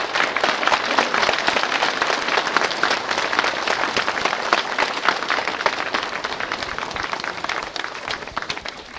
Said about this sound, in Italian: In ogni caso penso che voi sia nel pensiero della giuria e nel pensiero vostro di rivolgere un applauso ai poeti